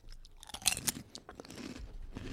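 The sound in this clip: Crunching of Clancy's Bratwurst potato chips being bitten and chewed: a few sharp, crisp crunches come close together, then softer, steady chewing continues, with no talking.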